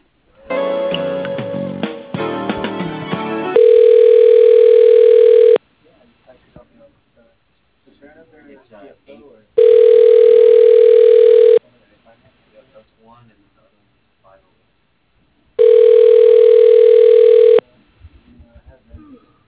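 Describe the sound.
A telephone line rings as a call is transferred to voicemail. A quick run of dialing tones comes first, then three long, steady, mid-pitched ringback tones, each lasting about two seconds and separated by quiet gaps with faint crackle.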